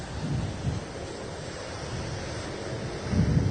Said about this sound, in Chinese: 不过就我现在在台北市区所感受到的风雨，已经明显的比在白天的时候还来的小一些哦。